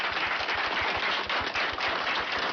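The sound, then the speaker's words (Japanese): Big applause for two young guests on stage: a dense, loud, crackling roar of many hands clapping at once, steady and unbroken for the whole stretch. “はい、お二人に大きな拍手を。”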